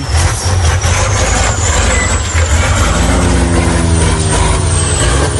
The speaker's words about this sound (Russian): Двигатель работает очень круто.